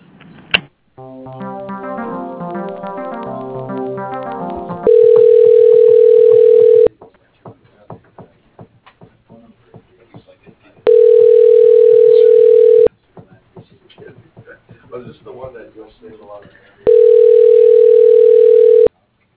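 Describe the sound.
A telephone line tone sounds while a call is transferred: three loud, steady, even tones, each about two seconds long, separated by quieter stretches with soft clicks, and preceded by a passage of layered tones.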